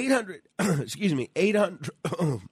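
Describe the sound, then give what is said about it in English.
A man clears his throat in a few rough, voiced bursts of varying length, separated by short gaps. “frog in my throat. Where's that water?”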